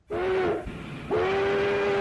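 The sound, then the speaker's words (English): Railroad steam train whistle sounding two steady-pitched blasts, a short first blow followed by a brief gap and a longer, sustained second blast, loud and clear with breathy hiss around the tone. “That four-mile stretch of Highway 91 was built by an unlikely lineup of visionaries, swindlers, and entertainers. And it all started with the railroad.”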